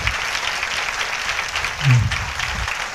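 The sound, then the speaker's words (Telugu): Applause from a church audience during a Christian sermon, dense and continuous clapping that swells briefly near the end. “చప్పట్లతో దేవుని కనపరచాను”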